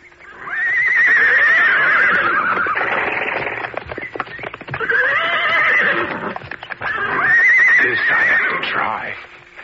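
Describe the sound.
A horse neighs in three loud, shrill whinnies that rise and waver, with hoof clatter between them.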